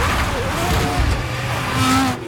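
A racing car runs off the track onto the grass during a race in Australia, giving a steady, loud engine roar with whining tones throughout and a slight drop in level at the very end.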